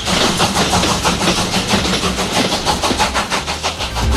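A loud, continuous rumble and clatter comes from a heritage passenger train, the EFE Valparaíso 'train of memories', with a fast, regular pulsing throughout and no voices.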